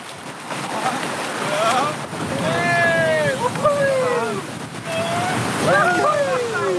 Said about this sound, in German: bis jetzt war die Salza sehr ruhig und sehr gemächlich, aber da vorne geht es jetzt echt dahin. Mal schauen, ob wir das können. Alle vorwärts paddeln